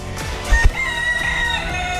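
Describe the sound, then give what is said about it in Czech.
Hens cluck beside an old cemetery along an uphill walk, giving a few short clucks and calls over steady outdoor background noise. “Tady mě zdraví slepičky.”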